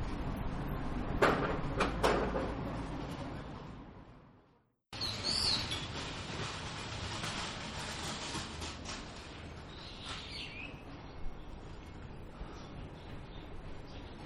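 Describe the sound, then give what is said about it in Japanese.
A garbage cart being pushed, rumbling and clattering steadily with a few sharp knocks early on, a brief dropout midway, and faint bird chirps heard above the noise. “さえずる鳥の声がお聞きいただけるでしょうかなんて思って回し始めましたら、おっちゃんがゴミのカートを押してガッコンガッコンいう音が入ってしまいましたけれども”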